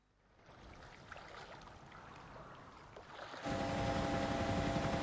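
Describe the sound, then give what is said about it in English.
Helicopter flying over the ocean during a search, a fairly quiet, steady rotor and engine roar that builds gradually, then jumps louder about two-thirds through with a steady whine on top. “The ocean extends beneath the helicopter, the pilot searching its vast blue expanse.”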